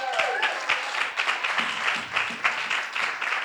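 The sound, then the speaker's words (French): An audience applauds as a man is called up onto a stage, with dense, steady clapping that keeps going through the whole clip. “Acclamez le beau gosse, Yann.”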